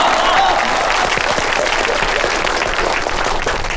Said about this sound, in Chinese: 下面让我们用热烈的掌声欢迎总经理胡克恭同志为大家讲话。